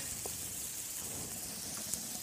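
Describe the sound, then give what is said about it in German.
Potatoes frying in fat in a pan for Bratkartoffeln give off a faint, steady sizzle and hiss that stays even throughout, with only small crackles rising above it. “Und sie dürfen nicht schwimmen in dem Fett, oder? Nein, nein, nein, das schwimmen wär, nicht, nein. Das sind dann ja eher wie Pommes, ne? Ja, wollen wir aber nicht, ne? Nee. Wir wollen gute Bratkartoffeln.”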